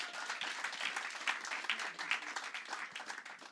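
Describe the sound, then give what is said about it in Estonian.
A church audience applauds a speaker with a fairly quiet but dense patter of many hands, individual claps flickering through a steady wash without speech. “Anname talle julgustava aplausi.”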